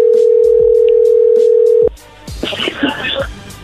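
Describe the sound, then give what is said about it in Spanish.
A steady telephone line tone hums without a break for about two seconds as a call connects, then cuts off abruptly and gives way to quieter line hiss with scattered clicks and crackle. “A ver, entró ahí la llamada.”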